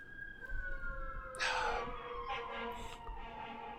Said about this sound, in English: The Death Eaters, they're here! no, it's just a bunch of sirens, it's alright.